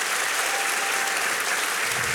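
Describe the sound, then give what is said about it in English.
Audience applause at a book discussion event, given to show who has already read a novel: steady, dense clapping that stays loud and even for the whole stretch. “by show of applause, who has read After Annie already?”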